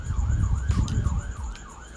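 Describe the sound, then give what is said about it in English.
Emergency vehicle sirens wail as they pass outside in Hawaii, their pitch rising and falling in quick repeated cycles over a loud, low rumble of road traffic. “Sorry for the sirens. It's crazy in Hawaii.”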